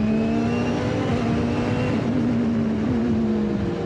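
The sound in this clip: A turbocharged car accelerating hard on narrow mountain roads gives a loud, sustained engine drone with a strong, steady tone that holds nearly level throughout, with no voices.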